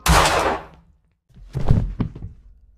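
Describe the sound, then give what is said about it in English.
A pistol shot fired with the muzzle in a man's mouth: one loud, sharp bang whose tail fades over nearly a second. After a short silence come a few duller knocks and thuds. “He put the pistol in his mouth and pulled the trigger.”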